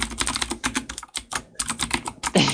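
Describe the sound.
Typing on a typewriter: a rapid, dense run of key clacks with brief pauses. The strikes are fairly loud and uneven, with no voices.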